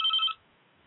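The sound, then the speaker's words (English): A telephone rings in a live radio studio: a single short electronic ring burst, steady and high-pitched, fairly loud, that stops abruptly after a fraction of a second, with no voices. “Sorry about that. It's live radio. Phone's ringing.”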